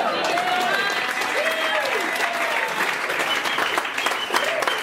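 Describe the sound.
Audience applause for a stand-up comedian, dense and steady clapping sustained throughout with voices calling out over it.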